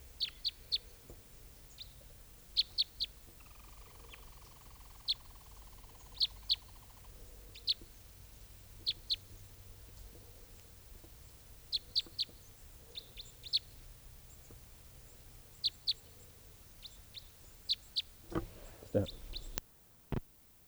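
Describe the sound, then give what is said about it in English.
Many short, sharp, high chirps from a family of type 5 birds, with young birds begging. The calls come in scattered bursts of one or two, sometimes quicker, over a low steady background. A brief louder rush of noise comes near the end. “A family of type 5s just arrived on the scene, and there's babies begging.”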